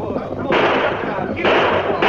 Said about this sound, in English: Rein up or we'll blast you full of lead. He's shooting.